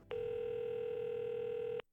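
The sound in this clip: A telephone signals an incoming call with a single steady electronic tone, held unbroken for nearly two seconds and clear on its own.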